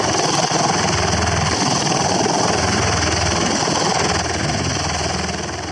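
A helicopter landing on a pad gives a loud, steady engine and rotor drone with a low throbbing rumble. It holds almost level throughout and eases slightly toward the end, with no voices.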